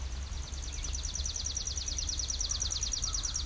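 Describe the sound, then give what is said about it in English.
A chipping sparrow sings a long, dry, rapid trill of many identical high chips at a steady pace, over a low background hum. “Ah, there we go. What a good chipping sparrow.”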